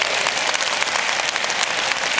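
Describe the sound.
Audience applause welcoming Bible college students to class: dense, even crackle of many hands clapping at a moderate level, steady throughout with no break and no voices on top.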